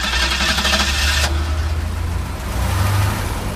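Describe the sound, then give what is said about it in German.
The engine of a 1979 Ford Granada with a 2.3-litre V6 runs with a steady low rumble and dense mechanical noise. Its texture shifts partway through and swells slightly toward the end, with no talking. “Es ist Zeit für eine Spritztour mit Uwe Hochsteins Granada V6 2,3 Liter Motor, Baujahr 1979.”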